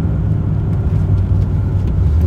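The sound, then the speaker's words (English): Steady low rumble of a car being driven into town, a continuous engine and road drone with no breaks. “I'm driving into town again to the post office to mail a check to myself.”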